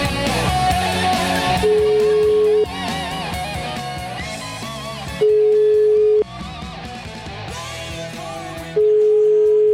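A telephone ringback tone plays while an outgoing call is placed. Three steady, one-second tones are evenly spaced over a busy background.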